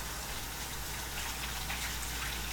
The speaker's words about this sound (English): let me wash my hands again. Oh, yeah, I'm going to wash my hands again.